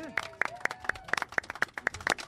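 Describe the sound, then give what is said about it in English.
Sharp hand claps strike right into a microphone in a steady, evenly spaced run of about ten crisp, close hits. “Can I clap in the mic?”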